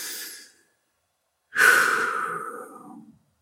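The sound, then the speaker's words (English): A single deep breath drawn and slowly let out, long and clearly audible on its own, after a brief, fainter breath at the very start. “I actually really just want to take a deep breath”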